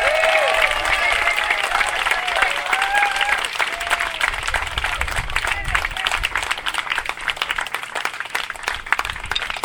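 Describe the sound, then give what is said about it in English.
Audience applause for state assemblyman Ted Lieu: a voice speaks briefly at the start, then dense, sustained clapping from a crowd fills the rest. “want you to give a big round of applause to our state assemblyman, Ted Lieu.”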